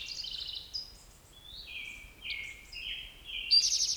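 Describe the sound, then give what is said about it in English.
Western Tanager song: a series of short, burry, high whistled phrases rising and falling in turn, fairly faint over a low steady background, with no voices. “I don't see the bird yet, Western Tanager in the background.”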